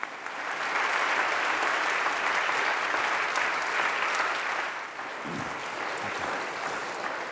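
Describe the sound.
Audience applause welcomes a guest speaker at a college convocation: dense, steady clapping from a crowd that swells in quickly, holds at an even level for several seconds, then eases slightly near the end.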